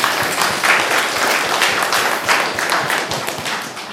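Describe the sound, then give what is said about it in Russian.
Audience applause for a prize winner receiving a book at the end of a talk: dense, steady clapping from many hands that holds its level throughout. “Книжку получает человек, который спрашивал за вопрос про Amazon. Похлопаем. Ура!”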